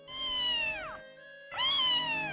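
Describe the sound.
A cat meows twice, loudly, with a short gap between the calls. Each meow is a sustained tone that bends downward at its end.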